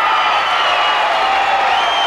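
An audience cheers and applauds to welcome country singer Willie Nelson, a dense, loud, continuous roar of clapping and crowd noise throughout.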